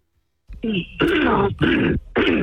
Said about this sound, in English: Hey, hold on a minute with the throat clearing.